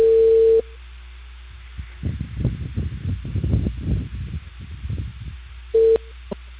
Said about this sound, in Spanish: se cortó la comunicación. Toda la llamada.